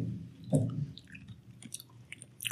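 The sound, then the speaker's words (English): Chewing a whole hot pepper with a cayenne-like taste: soft, wet crunching and mashing in quick succession, faint and without speech. “Are you eating the whole thing? Of course. I mean, it's got a nice flavor. It tastes like cayenne pepper.”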